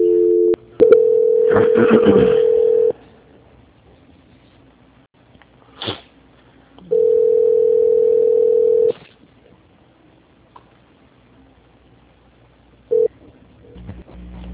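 A telephone call transfer tone: two long, steady, mid-pitched tones of about two seconds each, separated by a quiet gap, with a short beep at the start, a few clicks, and a brief blip near the end.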